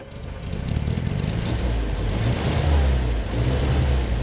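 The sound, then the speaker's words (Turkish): A petrol car engine running steadily just after its ignition and starter are used: a loud, continuous low rumble with crackly texture, swelling slightly partway through, with no talk. “Bakalım bu sefer hakiki benzinle çalıştırabilecek miyiz? Bunu denemek istiyorum. 10 dakika sonra ikinci denemeye hazırız. Konta aç ve bas marşa. Bastım.”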